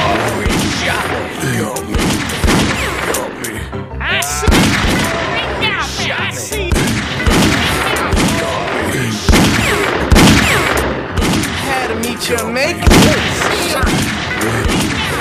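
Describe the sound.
A video game ambush fills with dense, chaotic gunfire. Many loud shots and booming impacts come in irregular, overlapping volleys that keep going the whole time.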